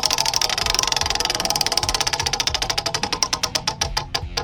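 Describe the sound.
A prize wheel on a trivia game show spins with a fast, continuous rattle of clicks that steadily slows, the ticks spreading further apart as it winds down.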